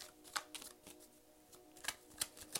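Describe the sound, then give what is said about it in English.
A Rider-Waite tarot deck is shuffled in faint, crisp card snaps and riffling clicks, a few sharper flicks standing out from a soft, uneven patter. “I am shuffling the Rider-Waite tarot deck.”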